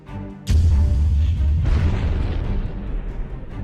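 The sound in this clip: Explosions boom through a shaking cave during a battle: one sudden loud blast, then a heavy, sustained low rumble that slowly eases off.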